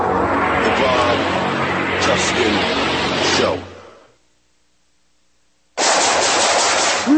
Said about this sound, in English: Shooting.